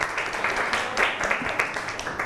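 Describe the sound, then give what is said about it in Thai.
A classroom of students applauding a classmate, many quick, irregular claps blending into a brisk, fairly even patter that lasts the whole moment. “ก่อนอื่นปรบมือให้เพื่อนหน่อยเร็ว”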